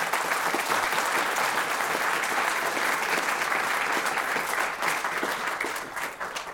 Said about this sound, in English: A very special welcome for the man of the hour from the class of 1939. Would you please put your hands together for Barney Greatrex?